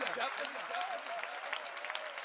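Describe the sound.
An audience claps at a gathering, a dense and even patter of many hands that continues under a voice.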